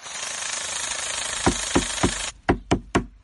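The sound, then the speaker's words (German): A power tool sands solid wood furniture during refurbishing with a rough, steady buzz, broken by several sharp rhythmic knocks. The buzz then cuts out, leaving a few separate strikes. “Und so hört es sich an, wenn sie ihre Holzmöbel verschönert.”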